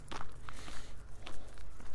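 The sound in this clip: Footsteps climbing a big hill outdoors: a steady series of soft thuds over a constant broad rush of background noise.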